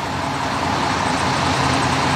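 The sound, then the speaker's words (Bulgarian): Steady traffic roar at a parking lot beside the Struma motorway, a continuous dense rumble of passing vehicles with no pauses or distinct events. “Здравейте от припека на един от паркингите край автомагистрала Струма.”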